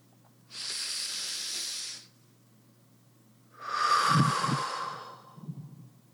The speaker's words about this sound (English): Make your last and final breath really, really count. Bring a lot of intention into that inhale and exhale.